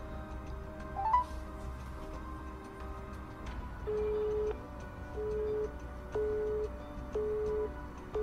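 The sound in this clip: A telephone ringback tone plays on a redialed call. Four short, steady, mid-pitched tone pulses come at even intervals over a constant low background hum with faint ticking.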